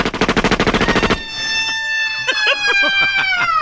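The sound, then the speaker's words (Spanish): Firing-squad gunfire: a rapid burst of many sharp, evenly spaced pops lasts a little over a second. It then stops abruptly and gives way to sustained tones. “Pelotón prepare fuego.”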